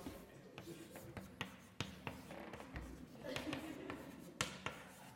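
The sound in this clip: Writing on a board while a person explains integrals, heard as a few sharp taps and scratchy strokes under continuous talking.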